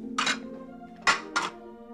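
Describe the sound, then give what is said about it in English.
Two teacups tumble off a stack of dishes and clatter down in three quick, sharp ceramic clinks, the first set apart and the last two close together, all fairly faint. “As she sets them down, two teacups tumble off.”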